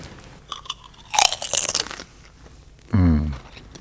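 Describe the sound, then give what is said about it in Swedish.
Sour red onion flavoured potato chips are bitten and crunched in a loud, dense burst of crisp cracking, followed by a short voiced hum. “Sådana kom krispigt ljud. Är det? Vill du ha? Jag tar en. Vad är det för smak? Syrlig rödlök.”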